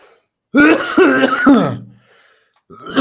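Someone clears a dry throat with a loud, rough, rasping burst of several gravelly pulses. A short quiet follows, then another harsh sound begins right at the end.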